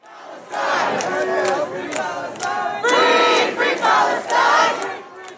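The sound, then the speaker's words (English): Pro-Palestinian demonstrators chant on Columbia University's campus, at an encampment protesting the war in Gaza. A loud crowd of voices chants in steady rhythmic bursts that continue without a break. “That's the sound of chanting a short time ago on Columbia University's campus,”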